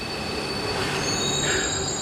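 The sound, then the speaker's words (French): Metro train wheels squeal against the rails in steady, piercing high-pitched tones over a continuous rolling rumble, with no voices. “Contexte dans le métro.”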